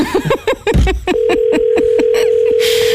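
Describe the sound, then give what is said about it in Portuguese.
Ringback tone on an outgoing phone call: one steady, mid-pitched tone lasting just over a second sounds once, after a brief burst of other sounds at the start. “Vamos ver. Está a chamar? Um toque.”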